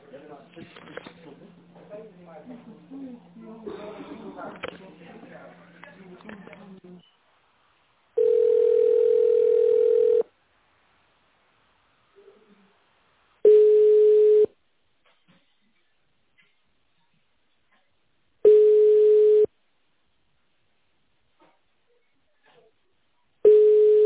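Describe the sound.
Telephone line tones during a call transfer: after a stretch of talk, a steady pitched tone sounds for about two seconds, then shorter identical beeps repeat at regular intervals with silence between them.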